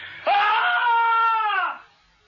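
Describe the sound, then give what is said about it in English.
A single sustained, blood-curdling scream with a sharp onset, holding a steady, piercing tone for over a second before dropping and fading. “You have to scream first. Okay. I'll give you a real blood curdler.”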